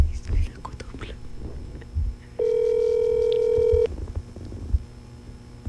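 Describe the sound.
A phone call rings out as one long, steady electronic ringback tone. Whispering voices are heard before and after it.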